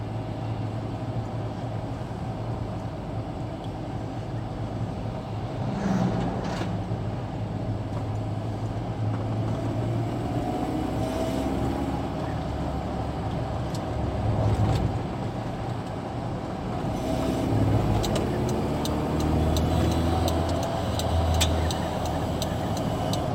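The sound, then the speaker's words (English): Steady engine and road rumble of a small-engine car driving, a continuous low drone that swells slightly at times and runs without a break. “this car is not a gutless piece of shit. It's a small engine. It performs well.”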